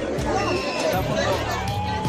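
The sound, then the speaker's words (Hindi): Crowd of pilgrims at Kamakhya temple during the Ambubachi fair, a dense, continuous hubbub of many overlapping voices that stays steady and fairly loud throughout. “हजारों की भीड़ मां के आशीर्वाद के लिए उमड़ पड़ी है।”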